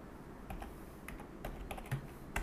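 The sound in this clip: Typing on a computer keyboard: many quick, irregular keystroke clicks tapping along at a soft, steady level, with no one speaking.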